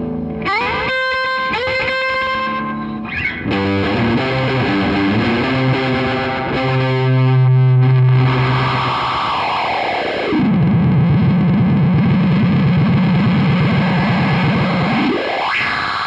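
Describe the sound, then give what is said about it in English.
Death by Audio Echo Dream guitar effects pedal, first version, producing distorted, echoing tones with dense stacked harmonics that shift in steps, then settling into a rough, low droning wash that sweeps down and ends with a sharp upward sweep. No voices. “So I have this Echo Dream, which is my favorite one. I don't have the second one. I have the first one. It's a Death by Audio pedal.”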